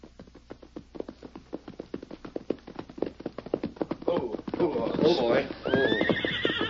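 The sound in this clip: Ridden horses' hooves clip-clop in a steady, even rhythm. Near the end, loud, wavering neighs and whinnies rise over the hoofbeats.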